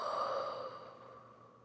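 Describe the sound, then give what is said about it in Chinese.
Someone takes a slow, deep breath during a guided breathing exercise, heard as a single soft, breathy exhale that fades away in under two seconds. “然后深呼吸，吸气，吐气，”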